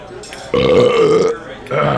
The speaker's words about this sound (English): And if you ever get invited to eat in a ninja camp, you be sure and belch like that when you're finished.